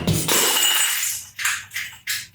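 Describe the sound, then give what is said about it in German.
A half-full glass water bottle falls and shatters: a loud crash at the start, then a few short, scattered bursts of rattling glass. “Meine Wasserflasche ist gerade kaputt gegangen.”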